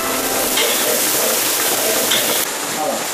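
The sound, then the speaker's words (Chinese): Fish from Erhai Lake cooks in a wok for a sour-and-spicy dish as a large spoonful of dried chili powder goes in. A loud, dense, continuous sizzling hiss of frying fills the whole clip. “大勺的干辣椒粉在鱼肉刚刚熟透的时候下锅，”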